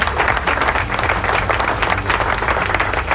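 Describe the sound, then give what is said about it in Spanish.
An applause sound effect plays on a radio show: a crowd's dense, steady clapping stays loud and continuous throughout, with no talk over it. “Dale, suena los aplausos. Ahí está.”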